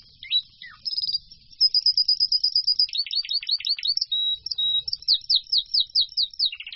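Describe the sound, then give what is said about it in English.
Song of an inbred bird whose parents were siblings: a rapid, high-pitched run of many chirps, short whistles and repeated downward-swept notes, clear and alone. “the researchers found that the songs of inbred birds and those of the other outbred birds”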